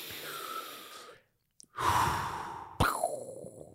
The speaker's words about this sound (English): Let's breathe.